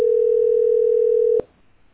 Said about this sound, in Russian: Сейчас я им позвоню быстренько, что они там есть.